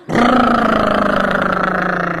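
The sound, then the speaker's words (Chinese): A voice imitates an old car fueled with soybean oil being push-started. It makes a steady, buzzing engine rumble with rapid pulsing that holds for about two seconds. “我这一打火你这么一推，这车就跑起来了”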